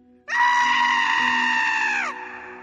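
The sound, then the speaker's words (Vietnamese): An anguished scream of pain rings out from inside a cave dwelling: one long, high, sustained wail of about two seconds that holds its pitch and then drops off at the end, over a faint low hum. “Hồi lâu sau, có một tiếng kêu la thảm thiết phát ra từ bên trong động phủ của Vương Bảo Nhạc.”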